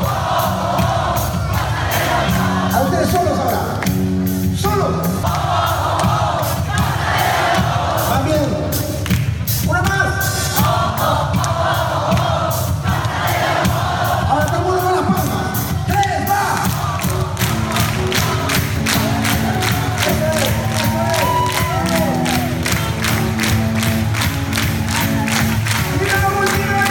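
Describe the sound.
Peruvian crowd at a concert, roaring and cheering at full volume. A dense, continuous wash of voices and shouts is layered with steady rhythmic thumps.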